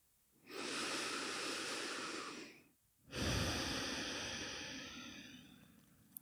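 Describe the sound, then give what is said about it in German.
Slow, deep breathing in a seated meditation: two long, airy breaths separated by a short pause, each lasting a few seconds, soft and with no talking. “Atme tief ein und aus.”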